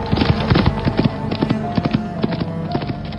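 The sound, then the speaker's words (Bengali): Hooves clip-clop in a steady, even rhythm as a horse is ridden at dawn out onto a road. There are many sharp, moderately loud beats and no voices. “ভোরের দিকে ঘোড়া চড়ে বাড়ির সীমানা পেরিয়ে রাস্তায় এসে পড়তেই একটা কাণ্ড হল।”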